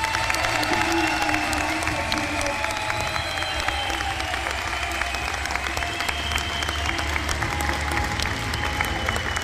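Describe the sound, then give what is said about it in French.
Audience applause mixed with cheering for the volunteers of a club event, with continuous clapping over a steady low hum and occasional shouts poking through the even wash of hands. “je voudrais vraiment qu'on fasse du bruit pour l'ensemble des bénévoles du Club de Tribune.”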